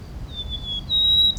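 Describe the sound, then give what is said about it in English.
White-crowned sparrow song: thin, high whistled notes, two drawn-out whistles, the second slightly higher and stronger, heard faintly above a steady low background rumble. “White crown sparrow, okay.”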